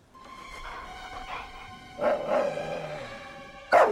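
A German shepherd barking from a grassy meadow among gravestones: a few sharp, loud barks with a short gap between them, the last one the strongest, over a steady faint background hiss.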